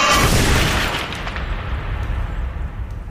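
A bomb explosion sound effect opens with a loud, broad blast that rolls into a long, decaying low rumble, a single boom fading over about three seconds.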